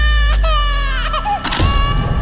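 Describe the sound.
Loud, sustained crying with a high, wailing voice whose pitch wavers and glides, breaking into a shorter, rougher sob toward the end.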